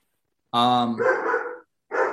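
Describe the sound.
A German Shepherd barks in two loud bursts: a long, strongly tonal first bark that turns rough and noisy, then a shorter one cut off at the end.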